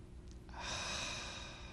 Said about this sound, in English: I sometimes just sit and breathe in and breathe out.